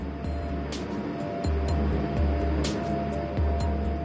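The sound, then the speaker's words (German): Deep mechanical rumble of a mine shaft cage descending 713 metres into a former salt mine in Saxony-Anhalt. A loud, steady roar runs throughout, with a regular series of sharp high ticks and a heavier low thump midway. “Sie fahren runter auf 713 Meter. Die Seilfahrt dauert zwei Minuten.”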